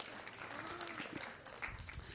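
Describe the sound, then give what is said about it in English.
A round of applause: dense, even clapping that fills the short clip without pause, steady in loudness from start to finish. “A round of applause for Richie.”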